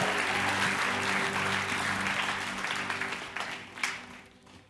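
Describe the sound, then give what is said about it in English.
A church audience applauds the worship team with dense, sustained clapping that slowly thins and fades toward the end. “Can I keep it going a little bit longer for the worship team, who is amazing? Give it up.”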